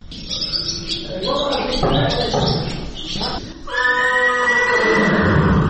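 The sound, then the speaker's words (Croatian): A horse neighs at a riding club on a spring morning, giving loud whinnying calls over a busy background. A long, sustained call fills the last two seconds. “Sunčano jutro u proljeće, savršen je početak dana za druženje sa konjima za Mariju Marković iz Podgorice”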